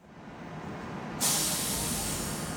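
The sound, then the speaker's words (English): Kansas City streetcar pulling up to the stop at 12th and Main, a steady airy rumble that turns into a brighter, louder hiss partway through, with no talking. “I'm standing at 12th and Main, waiting to ride the streetcar for the first time. As it comes up to the stop, my first impression is that it's pretty big, but it's actually really quiet, besides a funny little warning bell.”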